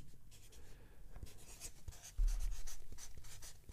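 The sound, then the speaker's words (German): Handwriting as a vote is written onto a card, a run of soft scratchy strokes and scraping marks that grow louder and busier partway through, with no voices. “Du musst die Namen nicht ausschreiben. Ja. Du schreibst einen Brief da drauf.”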